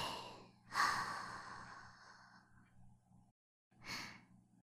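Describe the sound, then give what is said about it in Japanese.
Deep breathing during a guided breathing exercise: one long, breathy, airy breath that swells quickly and slowly fades over a couple of seconds, then, after a brief silence, a second, shorter breath, both soft and unhurried. “せーの、吸ってー、吐いて”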